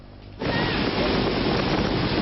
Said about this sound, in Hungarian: A szél úgy tépi a tetőlemezeket, mintha csak kartonpapírból lennének.